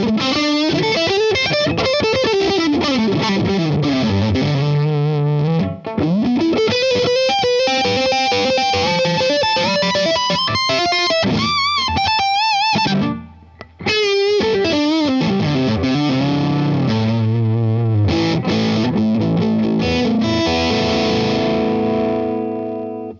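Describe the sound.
Distorted electric guitar with a humbucker pickup, played through effects as a continuous melodic line with bends and sustained notes, loud throughout apart from two brief dips.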